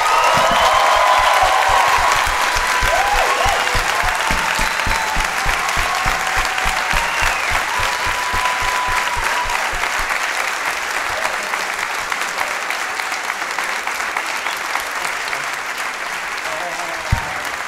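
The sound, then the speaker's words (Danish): Studio audience applause with some cheering and whoops as two comedian guests, winners of a comedian-of-the-year award, are welcomed on a show; a loud, sustained wash of clapping that eases slightly toward the end. “Er I ikke først rigtig søde og give en kæmpe stor hånd til vores gæster Frederik Siljus og Rasmus Broen?”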